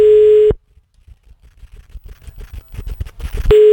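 Telephone call tone: a steady, fairly loud electronic beep sounds briefly, cuts off into a stretch of faint, muffled rustling, then returns at the end.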